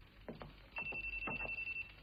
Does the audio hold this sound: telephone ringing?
yes